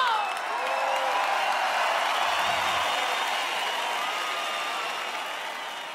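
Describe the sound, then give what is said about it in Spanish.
Audience applause and cheering form a steady wash of crowd noise with whistle-like tones above it, easing slightly in level toward the end. “para un fuerte aplauso.”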